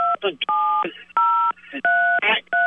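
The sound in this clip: Telephone keypad buttons pressed during a phone call produce about five loud, even touch-tone beeps, each a clean dual tone, with short fragments of a voice between them.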